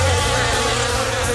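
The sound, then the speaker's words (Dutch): Dense, loud, continuous buzzing of a swarm of about 5,000 bees that had settled inside a parked car with its windows open, a steady droning hum with no talking. “5.000 bijen. Nee. Dus niet 10, niet 20, 5.000 bijen.”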